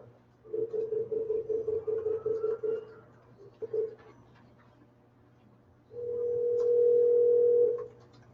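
Telephone tones sound while a caller is dialed back into a city council meeting. First comes a rapid series of short pulsed beeps, then a single brief blip, and after a pause a steady mid-pitched tone lasting about two seconds, all fairly faint.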